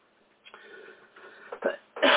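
Someone clearing their throat to get out something stuck in it: a few rough, guttural bursts that grow louder, ending in a stronger final push.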